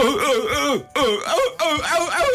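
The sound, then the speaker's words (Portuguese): A person imitates a seal with three loud, hoarse, barking vocal bursts, each swooping up and down in pitch, separated by brief gaps. “para dissipar qualquer dúvida, como é que faz uma foca? Faz.”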